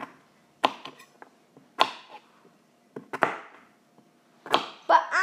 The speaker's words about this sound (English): you can cut your carrot up into multiple slices, like this